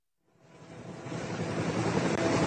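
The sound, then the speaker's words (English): A helicopter hovers above trees, its low, broad rotor rumble fading in from silence and swelling steadily louder into an even, sustained roar. “Do you see it right above the trees there? That's the helicopter. And you see people descending from it.”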